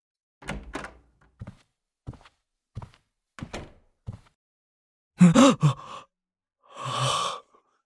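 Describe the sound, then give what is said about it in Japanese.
A door swings open after its lock in a run-down apartment is picked with a flathead screwdriver and a piece of wire. A few short, soft clicks and taps come first, then louder scraping bursts as the door gives way. “マイナスドライバーと針金ですぐ開いちゃうんだよな。ほら開いた。”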